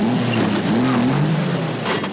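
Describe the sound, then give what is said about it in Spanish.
A vehicle's engine starts and the car speeds off from a gate, a loud, continuous throaty roar with a low wavering drone that fills the whole stretch, with no voices over it. “Mientras tanto, Mac arranca el vehículo y sale pitando ante la sorpresa general.”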